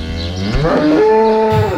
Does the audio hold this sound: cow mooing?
yes